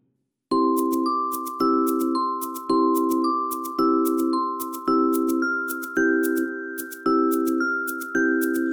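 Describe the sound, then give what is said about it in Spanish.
A bell rings in a steady series of about eight strikes, roughly one per second. Each clear, resonant tone sustains until the next, with slight shifts in pitch between strikes. “Ding, dong, dang. Así suena la campana que toca Martinillo.”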